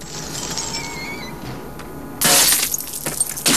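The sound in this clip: Glass letters of a neon sign shatter as gunfire sprays them on a rooftop: a quiet hiss with faint clinks gives way to a sudden loud burst of breaking glass, followed by bright tinkling fragments and further crackling.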